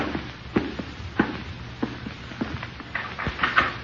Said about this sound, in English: See if there's anything to drink in the cupboard then.